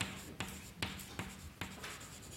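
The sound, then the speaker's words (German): Faint handwriting strokes sound in a regular series of soft scratches and light ticks, evenly spaced and quiet. “Also ich schreibe es gleich nochmal hin.”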